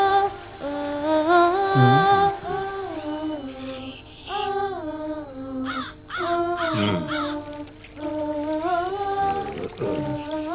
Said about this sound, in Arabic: هناك غراب يا جدي.